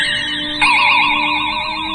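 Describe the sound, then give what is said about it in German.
A fire engine drives alongside an airport runway, its siren a loud, rapidly warbling wail over a steady vehicle rumble that swells abruptly partway through. “Oh, ein Feuerwehrauto. Das fährt neben der Landebahn entlang.”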